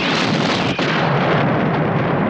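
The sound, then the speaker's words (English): Laser torpedoes explode in a space battle, a dense, sustained roar of blast noise that dips only briefly near the start. “Laser torpedoes are being destroyed.”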